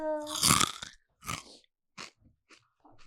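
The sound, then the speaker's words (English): Crunchy chips are bitten and chewed as Foley, with a brief voiced hum at the start. Several crisp crunches follow in separate bursts with short silences between them. “while Fletcher's gone, we might as well do some crunchy chip Foley”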